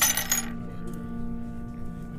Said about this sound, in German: Sie schiebt dir ein paar Goldmünzen rüber.